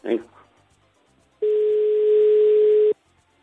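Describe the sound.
A telephone dial tone while placing a call: a single steady, even-pitched tone lasting about one and a half seconds, following a brief voice sound at the start and ending abruptly.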